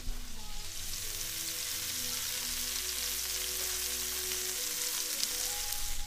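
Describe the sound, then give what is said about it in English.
Sausage and mushrooms frying in a pan give a loud, steady sizzle with dense crackle that holds without a break from start to finish. “It's the sound of sausage and mushrooms.”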